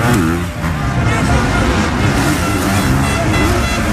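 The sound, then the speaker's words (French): Racing vehicles on a race circuit at Ernée in Mayenne make a dense, loud engine roar that holds steady throughout, with a faint wash of background hubbub. “Ce week-end à Ernée, sur le circuit Raymond Demy, on va entendre ça.”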